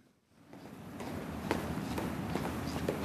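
Footsteps walk into the Viking Age exhibition at the Museum of Cultural History in Oslo, a steady, evenly spaced series of soft taps over a low background hum.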